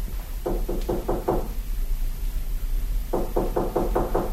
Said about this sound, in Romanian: Iar bate! El să fie!